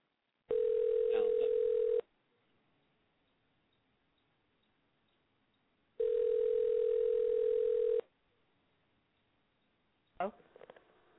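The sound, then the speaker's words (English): Telephone tone on an outgoing call being dialed: two steady, loud tone bursts of about two seconds each, separated by a long silence, then a brief clicking sound near the end. “Let's go ahead and give them a call, Jeff. All right. I'll dial the number up. When they answer, you can talk to them.”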